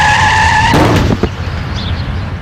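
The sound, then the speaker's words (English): A car skids at 40 mph and strikes a child: a sustained high tire squeal cuts off into a sharp, loud impact, followed by a brief rattle and a low rumbling tail. “This is the sound of a child being hit by a car at 40 miles an hour.”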